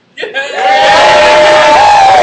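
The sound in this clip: A crowd gives a loud, resounding cheer of "yay": many voices swell within a fraction of a second into a sustained roar that holds strongly to the end.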